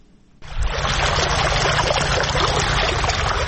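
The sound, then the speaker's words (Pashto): Water gushes from a deep well, pumped up by solar-powered machines for farmers in Sayed Abad district, Maidan Wardak. After a brief quiet start it bursts in abruptly, then runs on as a loud, steady, dense rush. “دا د میدان وردګو ولایت په سید آباد ولسوالۍ کې د ژورو څاګانو اوبه دي چې بزګران یې د لمریزې هندارو او ماشینونو په مرسته راپورته کوي”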